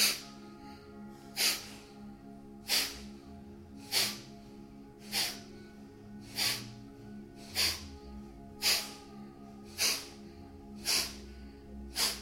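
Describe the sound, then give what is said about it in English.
Breath pushed out through the nose during a breathing exercise: ten short, sharp nasal exhalations in a steady rhythm, each a quick airy puff with quiet pauses between. “This time as you breathe in just halfway and then out of the nose. And again. And keep going.”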